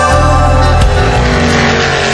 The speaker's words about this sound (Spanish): Cuando un auto de carreras corre entre las callecitas de una pequeña ciudad, es impresionante.